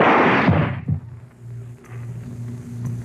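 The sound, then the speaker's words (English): Gunshots in a radio crime drama: a loud, harsh blast opens, followed by a couple of sharp cracks in quick succession, then a low steady hum with no voices. “Yeah, you shot him good the first time, Arnold. Why did you waste another bullet?”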